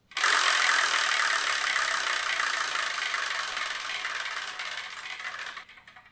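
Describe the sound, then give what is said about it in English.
A selection wheel spinning to pick the next title to review: a dense, steady rattling whir that starts abruptly, holds strongly, then gradually weakens over about six seconds before cutting off. No voices. “So let's spin and see what we're going to review in the next episode.”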